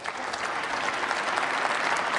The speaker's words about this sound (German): Ja, man achte auf den etwas gelangweilten Applaus aus den Reihen der FDP und aus den Reihen der CDU.